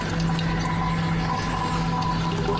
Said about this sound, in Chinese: 遇冷凝成液体，顺倾斜的挡板和细麻绳流出蒸馏桶，滴落到外面承接的容器里。